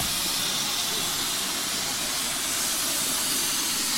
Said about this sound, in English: and movements of trains and shunting. The locomotive really does look good.